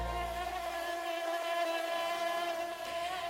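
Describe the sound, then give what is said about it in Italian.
Mosquitoes buzzing: a faint, continuous, high whining drone with a steady, layered tone and no breaks. “Sì, perché ci sarebbero anche le zanzare.”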